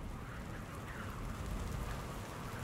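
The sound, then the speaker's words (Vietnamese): Heavy rain falls at night on a leaky tin roof, making a dense, steady, loud hiss with no separate drips standing out. “Đêm về khuya, mưa như nặng hạt hơn, nghe rõ từng tiếng nước nhỏ tí tách chỗ cái mái tôn thủng nơi góc bếp.”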